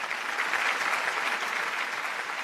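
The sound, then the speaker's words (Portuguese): Theatre audience applauding a composer who returns to the stage, a dense, even wash of many hands clapping, steady and fairly soft for the whole short stretch. “Os aplausos são tantos que o compositor volta ao palco para agradecer.”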